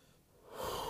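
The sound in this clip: A deep breath drawn in, a soft airy rush that swells from faint to fuller over about a second, with no talking.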